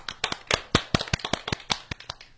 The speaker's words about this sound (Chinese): 来，我们掌声欢迎我们的家长。